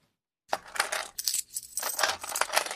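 Coins drop and jingle during a cash payment, a bright metallic clatter in several overlapping bursts that starts after a moment of silence and rattles on for about two seconds.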